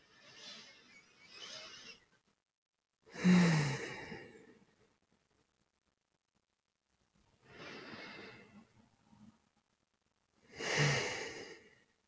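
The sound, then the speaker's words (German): Slow, deep breaths taken during a guided relaxation exercise, soft airy inhales and exhales rising and falling in separate swells with quiet pauses between them, faint and unhurried. “Und dann nimm doch mal drei tiefe Atemzüge in deinem Rhythmus ein und schließ gerne schon dabei die Augen.”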